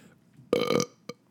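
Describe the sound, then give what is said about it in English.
A single loud, throaty burp lasts about a third of a second and is followed by a much smaller, brief catch of sound. “mistake of burping on the show”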